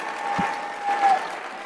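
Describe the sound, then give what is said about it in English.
Women in the audience applaud and cheer in a steady wash of clapping, with a thin, whistle-like tone rising through it twice and a single low thump near the start. “it's all the women cheering. Look at them. All the ladies. I love it.”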